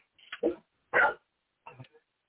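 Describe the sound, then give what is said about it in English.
A dog barking: a few short, sharp barks and yips separated by silent gaps, fairly quiet and heard alone. “Ah, that dog.”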